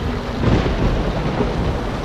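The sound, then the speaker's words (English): Thunderstorm at sea heard from aboard a ship, with rain and thunder making a steady, dense roar and low rumbling throughout, no voices. “I can see this storm does not seem to be letting up.”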